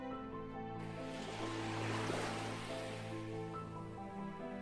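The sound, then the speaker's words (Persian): Ocean waves of the Persian Gulf wash in as a soft, continuous surf that swells through the middle and then eases. A sustained, low musical drone holds steady underneath. “ای مردم حماسه‌انگیز، صدایش را می‌شنوید؟ همین موجی که الان به گوش می‌رسه، صدای تپش قلب تاریخ ماست.”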